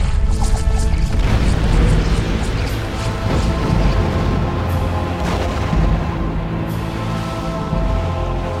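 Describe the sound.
A loud explosion as a monster blasts through a cell wall: a continuous roaring, crashing rumble lasting several seconds, with a few sharp crack-like hits in it rather than a single burst.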